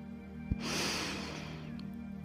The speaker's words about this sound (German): Nimm nochmal drei tiefe Atemzüge.